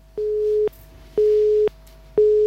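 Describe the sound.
Telephone busy tone after a caller hung up: three steady, mid-pitched beeps at an even pace, the last cut off, over a low constant hum.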